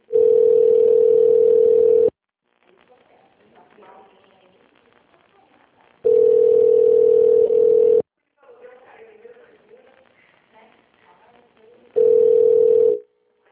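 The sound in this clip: While a call to a company line connects, a steady telephone tone sounds three times in long bursts of about two seconds. Quieter, faint sounds fill the gaps between the tones.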